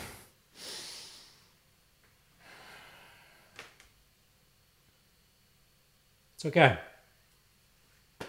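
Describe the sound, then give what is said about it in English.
Deep breathing from a person: two long, airy breaths with quiet pauses between, then a short, sharp voiced gasp. No speech is heard. “I'll take a deep breath.”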